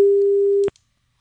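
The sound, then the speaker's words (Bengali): A telephone busy tone after a call-in line drops: one steady mid-pitched beep lasting most of a second, cut off by a click, then silence. “লাইনটাই কেটে গেল।”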